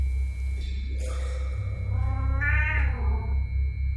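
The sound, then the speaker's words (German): A cat meowing, a short call followed by a longer drawn-out meow with a wavering tone, heard alone over a low steady hum. “Die Katze ist zurückgekommen.”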